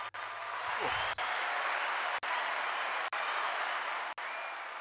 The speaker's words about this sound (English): it's got to be worth a round of applause.